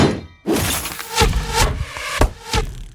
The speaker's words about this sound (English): crystal-clear recordings of weapon impacts to add drama to your battles.